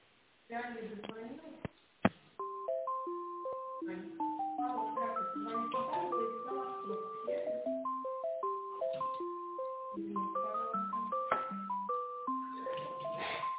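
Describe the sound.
Electronic hold music plays over a telephone line while a call is being transferred: a bright, beeping melody of steady tones that runs on continuously after a couple of sharp clicks near the start.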